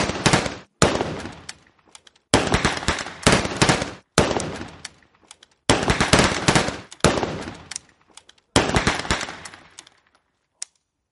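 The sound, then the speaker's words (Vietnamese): Gunfire from a firing squad rings out in several bursts of rapid, cracking shots separated by short silences, loud and sharp, ending with one isolated shot. “Những tiếng súng chát chúa vang lên như sấm xé nát bầu trời.”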